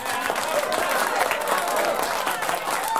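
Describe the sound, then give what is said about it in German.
Wedding guests applaud a bridal couple's dance with steady, dense clapping from a crowd, loud and unbroken for the whole stretch. “Ich bitte um einen kräftigen Applaus für diesen tollen Tanz unseres Brautpaares Semjon Petrov und Maria Sakolova.”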